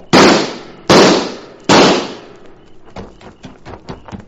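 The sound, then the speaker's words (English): Gunshots in a tense standoff: three sharp, loud cracks in quick succession, each decaying fast, then a run of fainter popping cracks. “That last shot gave him away.”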